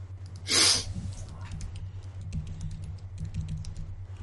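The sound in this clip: Typing on a computer keyboard while labeling a map: a run of light key clicks under a low steady hum, with one loud breathy burst near the start.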